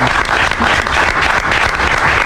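An audience applauds with dense, steady clapping that stays loud throughout, with no talk over it.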